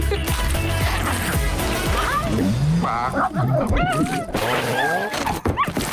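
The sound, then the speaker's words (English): A big red dog yips, whimpers and barks at a circus, with many short, pitch-sliding cries packed over a busy, loud bed of music-like sound. “This dog is killing me.”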